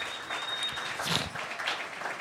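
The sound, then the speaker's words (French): Audience applause for a couple celebrating their relationship, dense and steady clapping that fills the whole stretch at an even, moderate level. “Bravo. Ben oui, on peut applaudir l'amour.”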